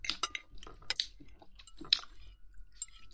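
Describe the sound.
Faint chewing of food: irregular crunchy bites and soft squishy mouth sounds come in short bursts, with no talking.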